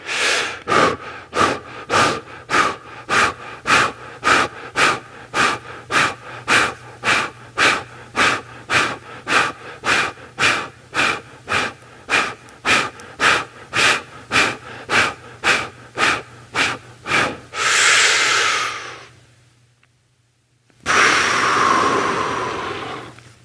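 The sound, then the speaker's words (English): Quick rhythmic breathing exercise: many rapid, evenly spaced forceful breaths, loud and breathy, then one longer drawn breath, a short silence and a final long exhale. “Let's try it again. We're going to breathe a little quicker.”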